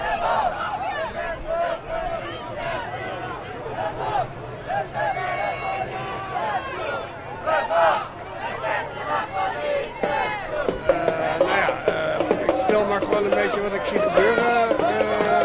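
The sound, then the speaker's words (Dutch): Protesters chanting behind a police line at a banned Palestine demonstration on the Dam in Amsterdam: a dense crowd of shouting, chanting voices, continuous and loud, growing more forceful toward the end, with people talking over it. “Het geluid komt nu van achter de politielinie. Ja, dat is niet anders.”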